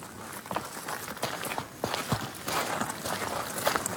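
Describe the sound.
People walk through a former quarry that has been returned to nature, their footsteps crunching in an uneven series of soft steps over a steady background hiss.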